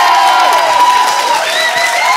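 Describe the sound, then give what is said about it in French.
Applause and cheering from an audience acclaiming a performer, a dense, steady wash of clapping with raised cheers and whoops running over it, loud throughout the short burst. “Vous pouvez encore l'applaudir.”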